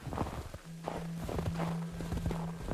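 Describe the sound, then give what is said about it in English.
Hurried, excited footsteps crunch over deep, packed snow on an Arctic expedition, a steady run of many soft, quick steps at low volume over a faint constant hum. “Snow had fallen deep and soft on the ground, packing hard beneath hurried, excited steps.”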